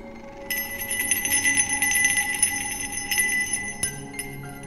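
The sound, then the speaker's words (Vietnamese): Small bells hanging at someone's waist jingle with a steady, bright shimmer of high ringing tones, broken by a couple of sharper strikes near the end, with no voices. “thần nhạc linh treo ở bên hông của Bạch Phàm bỗng nhiên rung lên những tiếng leng ca leng keng.”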